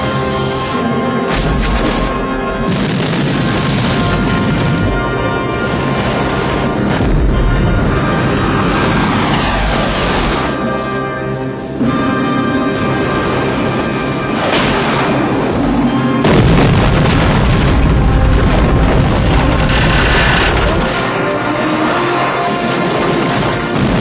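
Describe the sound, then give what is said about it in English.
Bomb explosions, with a dense, unbroken barrage of heavy booms, crashes and gunfire-like bangs, stay loud and continuous for the whole span with no pauses. “Drop a bomb.”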